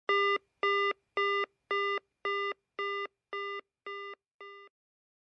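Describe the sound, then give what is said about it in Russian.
Telephone busy tone beeping in a handset receiver: nine short, evenly spaced beeps at one steady pitch, each slightly fainter than the last, with no voices. “В трубке раздались гудки.”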